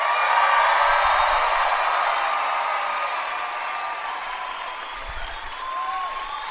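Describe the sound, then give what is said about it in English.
An audience gives a standing ovation at a live show in Denver, Colorado. Dense, steady clapping holds at a loud level throughout, with a faint hint of cheering beneath the applause. “Look at that. Wow. Standing ovation.”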